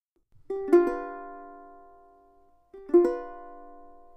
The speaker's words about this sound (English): But it needs to be a little bit quicker than that, because we want it to sound like a strum.